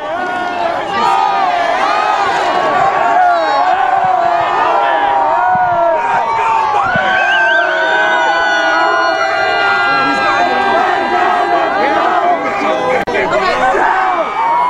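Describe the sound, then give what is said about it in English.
Buffalo Bills fans at an airport cheer and shout, welcoming the team back after a big win. The dense crowd roar holds loud and steady throughout, with overlapping shouts and chatter. “All these Bills fans hanging out at the airport, welcoming the team back after a big win.”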